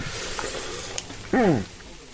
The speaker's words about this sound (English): The patties are sizzling on a little Weber grill in his driveway, and they smell delicious.